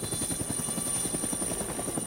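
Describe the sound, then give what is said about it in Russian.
A helicopter flies over, its rotor making a loud, continuous, rapid thudding over a steady engine drone. “И вот огромный корпус вертолета проплыл над ней, заслонив на мгновение небо.”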